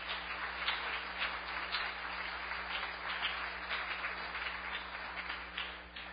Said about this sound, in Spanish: ¿Cuántos dicen amén? Dale ese aplauso al Señor.